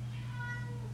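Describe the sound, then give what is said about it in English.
A house cat gives a single faint, brief meow under a steady low hum. “That was my cat in the background. She just walked in.”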